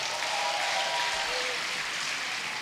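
Audience applause as a crowd votes by clapping, a dense and even wash of many hands that holds at steady loudness from start to finish.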